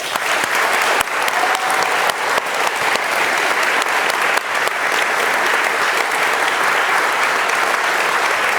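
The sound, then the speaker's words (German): Audience applause at a conference with talks, given to thank the volunteers who organised it. Loud, dense clapping continues evenly for the whole stretch. “Für die alle bitte auch nochmal einen Applaus.”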